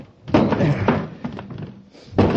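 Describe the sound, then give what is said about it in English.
A door is smashed open with heavy thuds and bangs, several forceful blows landing in irregular succession. “Search him. I'll see if I can smash the door.”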